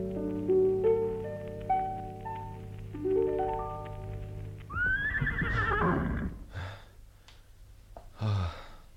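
A horse neighs loudly in a high, shaky whinny after a short musical phrase, followed by a few snorts and breathy blows.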